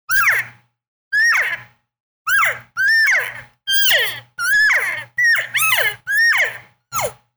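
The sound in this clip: Hunting call made by mouth, a human voice imitating game by shifting lips and jaw, sometimes through one side of the mouth: a rhythmic series of short, high squealing notes that break and slide sharply downward, separated by brief silences.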